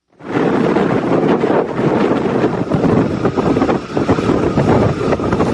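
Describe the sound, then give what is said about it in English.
Strong wind roars steadily around a vessel at sea fitted with rotor sails, a faint whirring from the spinning sails buried in the continuous gusty noise. “Now, those of you with bat-like hearing might have noticed a whirring sound in amongst the wind noise. That's the sound of a vessel at sea fitted with rotor sails.”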